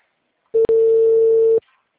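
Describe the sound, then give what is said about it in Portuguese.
A telephone ringback tone sounds while a call connects. It is a single loud, pure, steady tone lasting about a second, with a brief break just after it starts, then silence. “Alô? Ah, não. Tá chamando ainda.”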